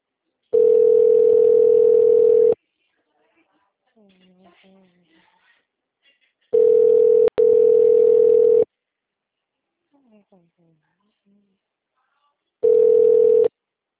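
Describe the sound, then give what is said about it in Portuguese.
A telephone ringback tone plays while someone calls back after being hung up on: three steady, mid-pitched beeps of about two seconds each, separated by long gaps with faint background murmur. “Caiu de novo, ele ligou na minha cara. Vamos ver se ele vai me atender.”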